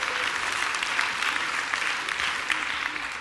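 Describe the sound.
An audience at a Christmas service applauds the worship team after the singing, with dense, steady clapping that stays even and loud throughout.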